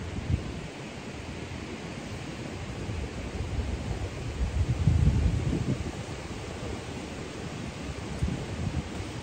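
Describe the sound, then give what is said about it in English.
Steady wind roars as a broad, continuous hiss with a low rumble, swelling noticeably near the middle and then easing back to an even level. No voices. “You're going to hear lots of wind today.”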